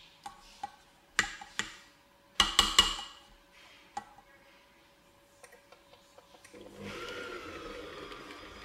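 An electric mixer beats burnt cheesecake batter in a steady, fairly loud whir near the end, after several sharp clicks and taps.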